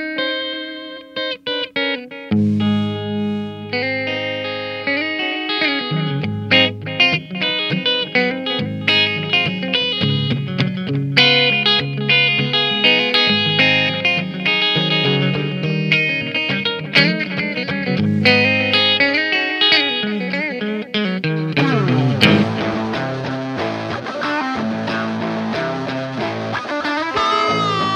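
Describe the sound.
An electric guitar, the player's main instrument, rings out through effects units with distortion and reverb, moving through sustained chords and note runs for a long, continuous passage that grows denser and brighter toward the end.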